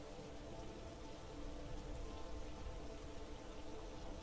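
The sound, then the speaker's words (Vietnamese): Heavy rain pours in a steady, dense hiss that stays fairly even throughout, with no voices or other distinct sounds. “Bởi vì mưa quá to”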